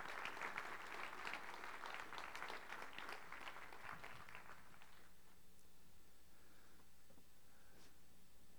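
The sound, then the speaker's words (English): A church audience applauds a newly welcomed elder, a full burst of clapping that thins out and dies away about halfway through, leaving near quiet with a few faint ticks. “And would you guys give him a little applause there?”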